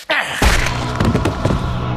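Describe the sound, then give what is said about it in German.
A hard blow from a Magnum revolver barrel striking a man behind the ear: a sudden heavy thump at the start, then a second, stronger impact, followed by a dense, rumbling roar that stays loud to the end. “Der Waffenlauf der Magnum traf mich hart hinter dem Ohr.”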